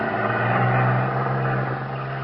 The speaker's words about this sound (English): You watch the small cruiser pull out. Head across the channel to the mainland.